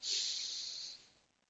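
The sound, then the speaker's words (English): One deep breath drawn in during a guided frankincense aroma meditation: a single airy, hissy inhale that holds steady for about a second, then tapers away. “So take a deep breath in one.”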